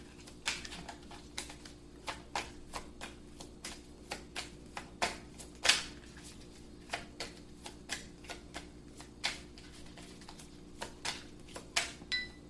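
Playing cards dealt one after another: many crisp, snappy flicks at irregular intervals over a quiet, steady background.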